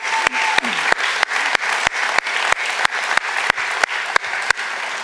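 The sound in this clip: A church audience claps as a guest is welcomed up. Many steady, evenly spaced rhythmic claps ride over a continuous bed of crowd applause.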